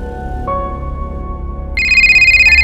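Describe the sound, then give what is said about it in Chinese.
A telephone ringing at night: a steady electronic tone sounds first, then jumps to a louder, higher, rapidly pulsing ring that carries on to the end. “都不知睡了多久，美玲突然被电话铃声吵醒，她周围望，究竟是边个的电话响呢？”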